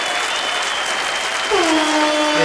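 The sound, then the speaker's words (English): A horn sound effect blares in from about midway. It is a sustained, harmonic honk with a slight bend in pitch, laid over a constant bed of applause-like crowd noise. “Here's the horn thing.”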